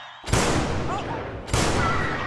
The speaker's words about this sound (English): The president appears to have been shot.